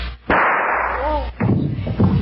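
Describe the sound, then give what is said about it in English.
A gunshot rings out as a woman shoots herself, a sudden loud bang with a long, rough, noisy tail, followed by another burst of harsh noise. “Shot herself.”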